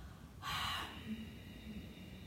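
A single breathy rush of air as someone exhales through the nose with the mouth closed in Ujjayi breathing. It is a short, hissing burst about half a second long, followed by quiet low background noise.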